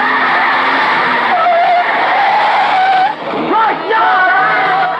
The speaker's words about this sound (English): As the trans security van pulls up, two cars speed round the corner.